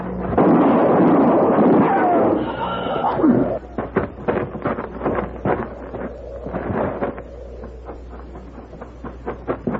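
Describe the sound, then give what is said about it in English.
A gunshot erupts as a loud, sustained booming blast for the first few seconds, then gives way to a scattered series of sharp clicks and knocks at a lower level. “You shot him.”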